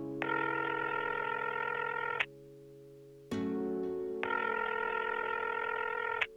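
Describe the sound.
A telephone rings for a call. Two long ring bursts are separated by a pause, each a bright buzzing trill over a lower steady tone.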